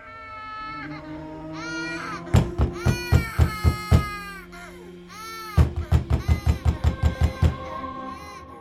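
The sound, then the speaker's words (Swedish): Anguished crying with wavering, high wails broken by two runs of rapid, loud sobbing pulses, each run roughly a dozen sharp gulps in quick rhythm. “För jag känner igen den där gråten. Allt för väl.”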